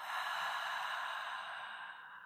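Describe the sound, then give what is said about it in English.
A full breath drawn in through the nose and released out the mouth at the close of a yoga practice, heard as one continuous airy rush, steady and fairly loud on its own, easing slightly toward the end. “First, take a full breath in through your nose. Exhale out the mouth.”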